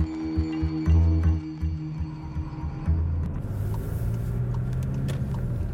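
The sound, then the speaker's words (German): Car engine rumbling as the vehicle drives along a country road lined with fruit and vegetable plantations; a steady low hum with tonal whine at first, then broader road noise takes over, with no talk. “Wir fahren über eine Landstraße.”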